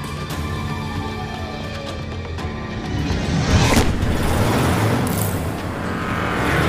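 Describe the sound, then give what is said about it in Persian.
A car engine starting and revving, its tone climbing and then swelling into a louder, sustained roar as it speeds off. “ناگهان ماشین اسمشو نبر به راه میفته. میره عقب، دورخیز میکنه و با سرعت میاد جلو.”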